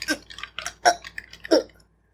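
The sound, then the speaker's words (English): Sloshing and rattling come from a bottle of tea being shaken with a badly fitted, loose lid. There are a few uneven bursts of liquid and rattle, some sharp and some softer, before everything falls quiet near the end. “I did it a little timidly because I noticed my lid was on really effed up, so I was a really timid shake. Let me give you a proper.”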